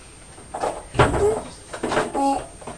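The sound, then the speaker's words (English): A cupboard door is opened and closed, giving a few soft knocks and thuds spread over a couple of seconds against a quiet background. “Now, Mummy's just looking in the cupboard because I thought we could do some biscuits this afternoon.”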